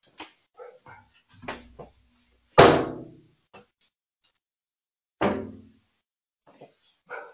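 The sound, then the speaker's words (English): A pet dog barks indoors: two loud, single woofs a few seconds apart, each a sharp burst that fades quickly. Quiet stretches sit between them. “She had to get out one more woof.”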